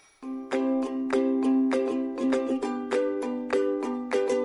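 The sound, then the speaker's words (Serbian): A children's alarm clock rings out a bright chiming melody of repeated bell-like notes in a steady, bouncy rhythm, loud and with no voices. “Trupa-tru, trupa-tru, trupa-tru, trupa-tru. Dečji budilnik.”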